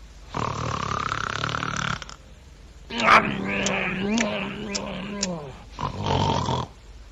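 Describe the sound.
A storyteller's voice imitates a man snoring heavily in deep sleep, with loud rasping, drawn-out snores and snorting grunts in the middle, repeated a few times with short pauses between.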